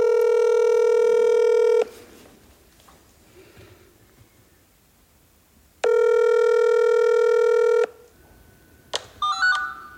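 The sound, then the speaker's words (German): Outgoing call ringing over a messenger app: two long, steady ringback tones separated by a pause of about four seconds, followed by a few short electronic blips near the end. “Und dann haben wir genau diese Leute einfach über den Messenger mit einer Dolmetscherin zusammen angerufen.”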